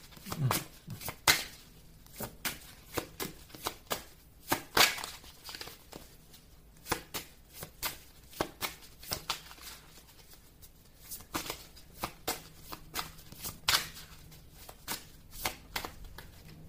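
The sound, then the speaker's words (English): Playing cards being shuffled and dealt, heard as many crisp flicks, slaps and riffles in an irregular rhythm, some sharp and louder, others soft. “Okay, may I have 4 more cards, please?”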